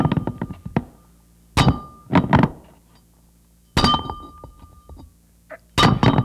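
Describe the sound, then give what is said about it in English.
Space armor is taken off with metallic clanks and heavy thunks: many loud, sharp impacts come in irregular clusters separated by quiet gaps, some with a brief metallic ring. “Now to get out of this space armor.”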